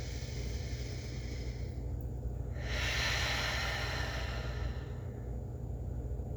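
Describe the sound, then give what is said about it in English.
A person takes a slow, deep breath. It is heard as a soft, airy hiss that swells in the middle and then eases back, over a steady low background noise. “So I'll leave you with a really deep breath.”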